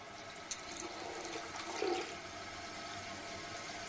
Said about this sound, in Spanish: Abre uno de los grifos y mete la cara bajo él.